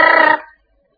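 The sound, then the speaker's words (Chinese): A telephone bell gives one short, loud, rattling ring with a fast trill lasting about a third of a second, then fades quickly into silence. “电话铃响起来”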